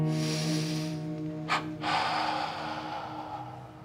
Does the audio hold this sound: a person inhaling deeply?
yes